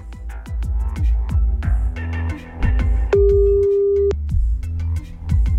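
A telephone ringing tone sounds once while a call is placed back: one steady, clear electronic tone lasting about a second, over a throbbing rhythmic music bed.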